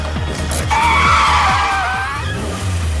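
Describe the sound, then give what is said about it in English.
A car's tires screech in a long, loud skid that wavers and then fades, over a steady, pulsing low beat and engine rumble. “I love practical car crashes.”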